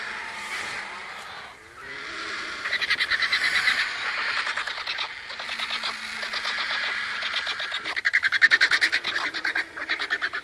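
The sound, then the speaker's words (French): Griffon vultures squabbling while they feed on a carcass give harsh, rapid, rattling and grating calls. The calls overlap in a nearly continuous racket that grows louder toward the end. “On vient d'entendre l'enregistrement d'une curée. C'est le moment où les vautours vont se nourrir d'un cadavre. Une curée peut rassembler des dizaines de vautours fauves qui vont se disputer les parties molles”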